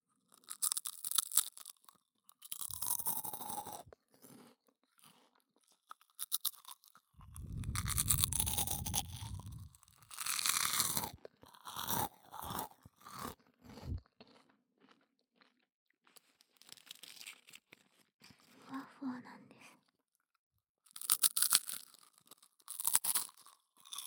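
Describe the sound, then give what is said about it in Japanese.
Crunching and chewing of very crispy food: many sharp, loud crunches in dense bursts, separated by short pauses, with no talk. “すごくパリパリ。”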